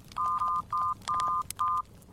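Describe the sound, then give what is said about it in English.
Cell phone keypad tones as a number is dialed: several steady electronic beeps of uneven length, separated by short gaps, with faint clicks between them. “Anyone have a cell phone? I've got to phone Mrs. Claus.”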